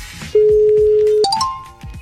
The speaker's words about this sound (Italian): Adesso lo chiamiamo e adesso mi faccio spiegare.